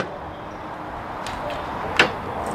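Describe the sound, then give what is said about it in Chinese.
Trunk of a small passenger car being opened during a roadside traffic police check: a single sharp latch click over a steady rumble of passing traffic. “您把这后备箱咱打开一下啊。”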